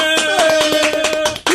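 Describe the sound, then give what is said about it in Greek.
Hosts clap on a Greek morning show, giving brisk, rhythmic hand claps in a quick series over sustained musical tones. “Ένα χειροκρότημα, ρε.”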